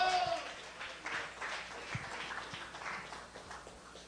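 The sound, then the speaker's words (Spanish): Faint applause from a church audience during a service: soft, diffuse clapping that comes in uneven waves over a low background. “Y dele un aplauso al Señor por eso.”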